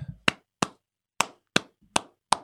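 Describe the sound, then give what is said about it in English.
Six sharp hand claps ring out alone against silence, loud and crisp, spaced at a slow, fairly even pace. “I give you a clap.”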